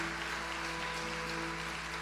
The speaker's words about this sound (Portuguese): Se você quiser, pode aplaudir o Senhor.